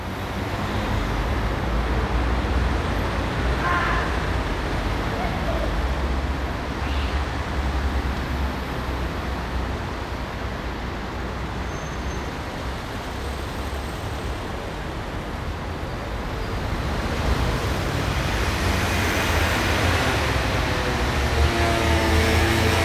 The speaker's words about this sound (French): Sous l'autopont, un effet de voûte réverbère les sons du rez-de-chaussée et les amplifie. Mais on n'entend plus le trafic du dessus.